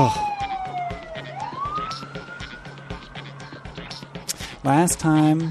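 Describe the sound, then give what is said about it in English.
A police car siren passing by: one long wailing tone that glides down, then sweeps back up and holds high. It stays moderately loud over a busy, rumbling background. “I'll just let the sirens go by here.”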